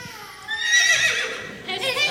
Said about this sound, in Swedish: Bra, ja, en häst.